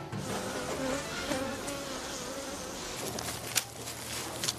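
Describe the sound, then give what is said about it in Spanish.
A honeybee swarm leaves the hive with the queen mother and half the colony. Dense, continuous buzzing drones steadily, with a few sharper close passes standing out near the end. “La reina madre sale con la colmena con la mitad de la población para formar una nueva colonia. A este grupo que sale se le llama enjambre.”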